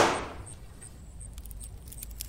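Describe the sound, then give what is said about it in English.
An arrow shot striking a tree branch: a sharp, bright crack at the very start that fades away, followed by faint, scattered tinkling and clicking. “No! You shot the branch!”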